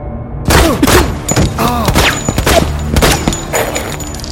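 Rapid bursts of video game gunfire, loud and dense, with several sharp shots and thuds following close together for the whole stretch.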